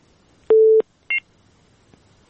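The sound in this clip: Telephone tones as a caller is connected to a call-in show: a longer low electronic tone, then a short, higher dual-tone beep, over faint background hiss.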